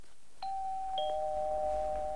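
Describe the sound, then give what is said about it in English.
A doorbell rings at a front door with a two-tone ding-dong: a clear chime, then a slightly lower sustained tone that rings on, with no voices. “Bruce arrives at Vicky's front door and rings the bell”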